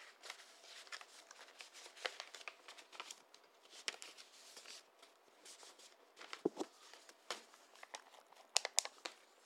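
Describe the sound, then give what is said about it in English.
Crisp paper crinkling and rustling as a paper survey is folded and slid into an envelope. Many soft, irregular crackles run throughout, with a few sharper crinkles toward the end. “I'm going to send this off in the envelope. Right? Going in the envelope right now.”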